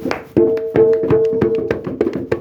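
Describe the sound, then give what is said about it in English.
Hand claps alternate with drum beats in a steady rhythm exercise, a run of sharp, evenly spaced hits, some carrying a low drum resonance. “Clap. Drum. Clap. Drum. Clap. Now we're going to do it faster. So watch me how I do it.”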